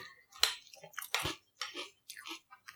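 Boo Berry cereal with milk being chewed produces a faint series of many wet, crunchy bites and squishy mouth sounds in irregular bursts, separated by short silences.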